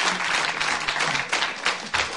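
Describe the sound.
Audience applause for an actor welcomed onto a radio cabaret stage: dense, fast clapping with a few louder individual claps standing out near the end.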